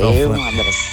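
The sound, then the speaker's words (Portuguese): A rooster crows in the background while a person talks over it, its strained call rising and holding beneath the voice. “Tem um galo cantando aí atrás.”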